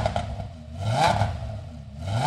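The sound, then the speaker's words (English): A ten-cylinder Audi race car engine revs in a workshop, with the pitch climbing and dropping in a couple of throttle blips over a rough, rumbling idle, and no voices. “And that's a 10-cylinder Audi he's revving up in the shop.”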